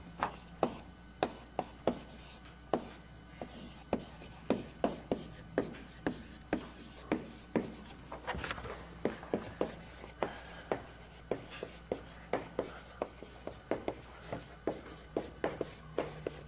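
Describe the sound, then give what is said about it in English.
Drawing a red-black tree diagram on a board during a lecture: many short scratchy strokes and light taps in an uneven but steady rhythm, with no talk. “So let me draw a picture.”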